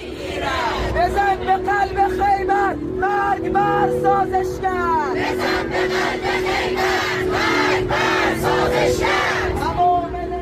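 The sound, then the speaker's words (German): Crowd of regime supporters cheering in a street at night, breaking into spontaneous jubilation: a loud, sustained roar of many voices with repeated shouts and cries rising over the din throughout. “Und dann ist natürlich so spontaner Jubel ausgebrochen.”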